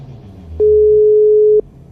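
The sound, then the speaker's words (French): Telephone ringback tone on a call line: one steady, mid-pitched electronic beep lasting about a second, standing alone against faint background hiss. “j'ai téléphoné à un de ses cofondateurs.”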